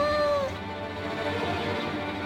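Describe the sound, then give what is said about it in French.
A kitten stuck up a tree meows once at the start, a thin, high, wavering cry, followed by steady, noisy background sound. “Le chaton miaulait, miaulait.”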